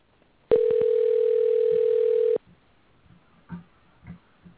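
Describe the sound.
A telephone ring sounds as one steady electronic tone that holds for about two seconds and then cuts off. A few soft, faint bumps follow.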